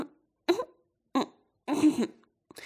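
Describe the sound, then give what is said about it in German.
A voice imitating a frog from Kyoto clearing its throat several times: a few rough, throaty bursts separated by short silences, one of them longer and fuller than the rest. “Der Frosch aus Kyoto räusperte sich ein paar Mal, ehe er antwortete”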